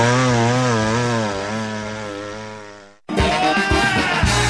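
Chainsaw engine running: a loud, buzzing harmonic drone holds steady for about three seconds, then cuts off abruptly and gives way to a harsher, noisier roar of the saw under load.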